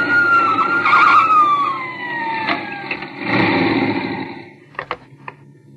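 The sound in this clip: A car engine runs after overheating and stalling, giving a steady low hum. A high tone slides down in pitch early on, and a few short knocks come near the end, with no talk.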